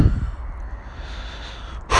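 Shaky, trembling breathing of a person wading into cold water, with a loud breath at the start, steady unsteady breathing through the middle, and another sharp breath at the end.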